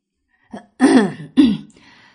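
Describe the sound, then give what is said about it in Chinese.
A man gives a light cough and clears his throat: a faint short catch, then two fuller, rasping throat-clearing bursts in quick succession, with no talk. “黄甫臣轻咳了咳，加紧步伐跟上。”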